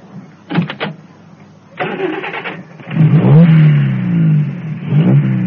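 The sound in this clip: A car engine cranks in short bursts and then catches and revs, its pitch swooping up and down. The car has a queer-looking device in front of the windscreen and is being readied to race for a trophy.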